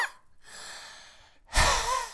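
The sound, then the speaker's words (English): A person makes exaggerated, asthmatic-sounding breaths: a long, airy wheeze followed by a louder, harsher gasping breath. “We're sounding a bit asthmatic. I just want to breathe like that this whole episode.”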